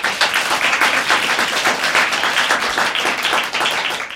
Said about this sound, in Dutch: Ik vind het ook heel leuk dat jullie even applaudisseren voor degene